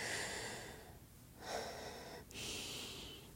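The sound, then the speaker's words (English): Someone takes a deep breath in through the nose, a faint, breathy, sniffing intake of air that swells in a few surges over several seconds, with no talking. “calm down, calm down. And take a nice deep breath.”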